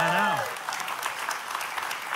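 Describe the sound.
Audience applause follows a brief spoken phrase, a dense, even crackle of clapping that holds steady at moderate loudness for about two seconds.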